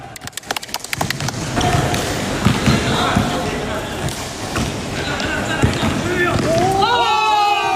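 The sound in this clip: A basketball bounces as colleagues play together to unwind after work, a quick run of many thuds at the start, then a scuffle of play with voices calling out.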